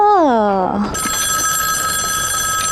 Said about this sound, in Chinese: 电话电话，哦，电话来了，是不是？